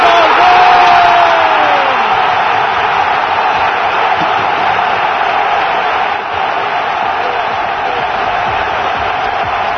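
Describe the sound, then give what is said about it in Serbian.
A stadium crowd of some 50,000 football fans at Rajko Mitić roars for a Red Star Belgrade goal, a loud, dense and continuous cheer that holds steady throughout. “Gol! 1-0, 1-0 za Crvenu Zvezdu. I oduševljenje 50.000 navijača na stadionu Rajko Mitić.”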